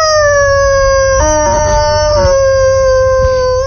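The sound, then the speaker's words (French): A wolf howls in one loud, long, sustained cry of steady pitch that fills the whole clip, with a brief rough wavering midway. “Quand le loup descendit dans la cheminée, il tomba tout droit dedans. Il poussa un hurlement”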